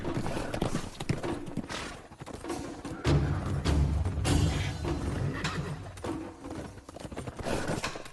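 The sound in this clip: Horse hooves clip-clop in a steady, dense run of hits, with occasional heavier thuds, filling the whole stretch at a fairly even level.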